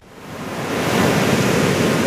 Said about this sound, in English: In St Helena Bay on South Africa's west coast, the houses have an enviable view of long sand beaches, blue skies, a gentle swell of waves.